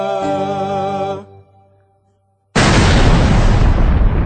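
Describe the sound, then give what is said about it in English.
Explosion blast sound effect: a held, wavering tone fades away into silence, then a sudden loud roaring boom bursts in and stays at full strength to the end. “A blast is heard.”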